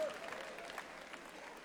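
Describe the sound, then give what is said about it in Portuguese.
A church audience claps together during a worship service with a choir, a faint, continuous wash of many hands held at an even level the whole time. “E vocês continuam aplaudindo o nome do Senhor. Com glória a Deus, com aleluia, com glória, palmas. Continue aplaudindo.”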